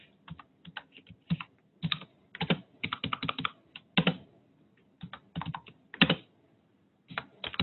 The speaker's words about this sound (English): I'm going to type in my professor's name, okay, I'm going to type in the course number,